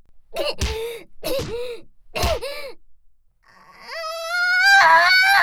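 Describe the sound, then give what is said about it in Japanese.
A boy cries, with a few short sobbing bursts followed by a long, loud wail that rises in pitch and holds. “男のくせにすぐ泣くのやめろっつってんだろうが”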